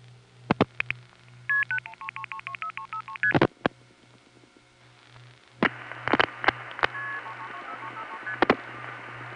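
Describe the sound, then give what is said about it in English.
Telephone trunk MF signaling tones on a long-distance line from New York to Fort Myers: two rapid runs of many short paired beeps, each run broken by loud clicks, over a steady low carrier hum. “New York 4 is picking up a trunk to Fort Myers and MFing the number, and then you hear the carrier noise and the NX1 noises begin.”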